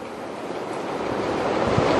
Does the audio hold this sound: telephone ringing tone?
no